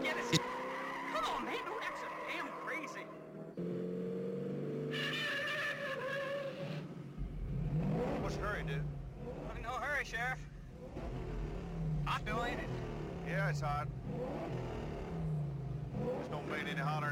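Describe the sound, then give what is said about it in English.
A car engine revs in an old film scene as a character talks with the sheriff, a low, rumbling drone under several voices, with brief laughter-like sounds in places. “He's like sitting there talking to the sheriff, just revving the car up.”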